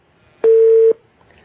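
A single steady telephone tone sounds as a phone call is cut off: one loud, mid-pitched beep lasting about half a second, heard alone with quiet before and after.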